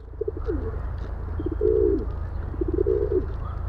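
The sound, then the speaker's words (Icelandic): Dove cooing: soft, low-pitched, hollow coos in two phrases, each opened by a few short pulses and ending in a longer, warbling note, heard faintly over a steady low background hum. “kannski hljómaði eitthvað svipað og dúfukur.”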